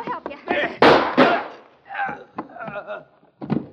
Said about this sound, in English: He was killing me. Thanks for shooting him.